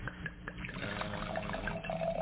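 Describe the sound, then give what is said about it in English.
Red Cabernet wine being poured into a glass, a soft, faint liquid trickle that runs steadily without pause. “going to give our first pour here”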